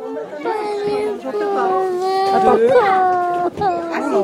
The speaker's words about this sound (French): Salut, tu vas bien? Salut. Arrête de pleurer.